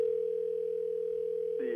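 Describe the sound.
A telephone dial tone while placing a call: a steady, unbroken mid-pitched tone runs throughout at an even level, with a brief voice-like sound cutting in at the very end.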